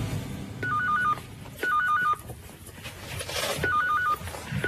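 Telephone ringing in three warbling bursts of a bell-like tone, evenly spaced with pauses between, alone with no talking.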